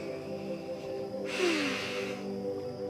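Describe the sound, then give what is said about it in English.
A slow breath taken while relaxing in a yoga forward fold, heard as a single soft, breathy hiss of about a second. Steady, quiet background tones continue underneath. “Then just relax here and take a couple of breaths.”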